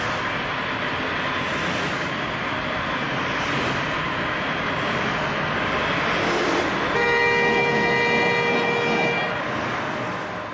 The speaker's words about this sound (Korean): 자동차가 질주합니다.